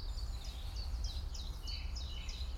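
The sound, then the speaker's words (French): A long-tailed tit gives a faint, thin, high trill of short notes repeated in quick succession over a steady low rumble. “Là, il y a de la mésange à longue queue. La petite trille qu'on entend à peine là.”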